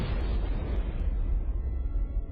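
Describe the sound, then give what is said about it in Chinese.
A blast charge goes off inside a cave, leaving a loud, sustained low roar that echoes on while its brighter hiss fades away. No voices are heard. “导爆所爆炸后的回声还在洞内回响着，硝烟的味道也尚未散尽。”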